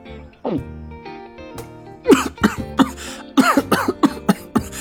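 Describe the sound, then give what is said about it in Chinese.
Someone who choked on a big gulp of watermelon juice coughs hard with a hand over the mouth. After a short voiced sound come many rapid, harsh, rhythmic coughs. “罗瑞紧张的口干舌燥，用力喝了一大口西瓜汁，结果不小心呛到了，捂着嘴直咳嗽。”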